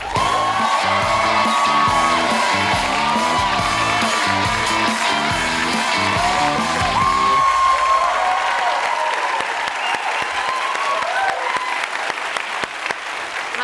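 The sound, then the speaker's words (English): A late-night talk show studio audience applauds as a guest walks on, loud, sustained clapping mixed with whoops and cheers that stays strong, then thins slightly toward the end. “Please welcome Padma Lakshmi.”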